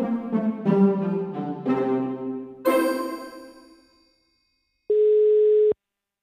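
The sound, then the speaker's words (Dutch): A telephone ringing tone sounds while a call is placed: one steady, mid-pitched ring lasting under a second. Before it, a few bell-like chimes ring out, fade away and give way to silence. “Maar in ieder geval ga ik ze bellen, want eh, ze mogen in ieder geval weten dat ik ervan genoten heb.”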